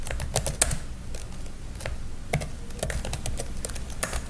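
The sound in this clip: Typing on a computer keyboard: a steady run of quick, light key clicks with a few louder taps in an uneven rhythm, with no voices.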